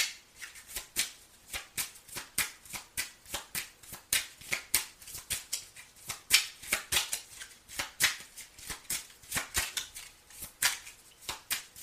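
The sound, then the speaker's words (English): Tarot cards being shuffled and pulled from the deck, a long, uneven stream of many crisp papery snaps and flicks in quick succession, with no talking. “I'm going to pull some more cards right quick.”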